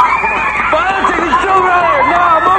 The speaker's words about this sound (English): He waves them away with a handgun, and the children run from the sanctuary.